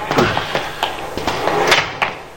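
Someone forces open the door of a Cadillac car with a series of sharp metallic knocks and clunks, several irregular jolts, over a constant background hiss.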